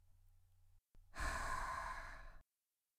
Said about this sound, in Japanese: はい、息を吸って。うん、そう。吐いて。